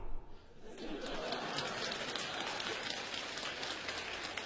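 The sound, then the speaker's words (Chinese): Faint, sustained applause from an audience follows a magic trick in a comic crosstalk stage act, a soft, even patter of many hands with no distinct single claps. “你看，鼓掌了吧？ 这 挂魔术啪一出来，大家就得鼓掌。”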